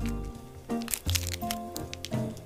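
Crinkling crackles as an individually wrapped Korean ginseng candy is opened, a few brief crisp bursts of plastic wrapper noise over a soft tonal background.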